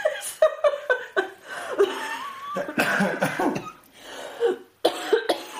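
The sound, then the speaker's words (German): A harsh, raspy coughing fit that resembles a smoker's cough, broken into short repeated bursts and mixed with chuckling and throat clearing. “Ich rauche übrigens nicht, auch wenn das so klingt. Als wäre das jetzt Raucherhusten.”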